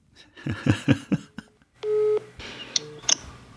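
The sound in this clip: Telephone line tones as an outgoing call rings out: a single steady ringing tone after a few short sounds, followed by brief beeps, with no clear talking.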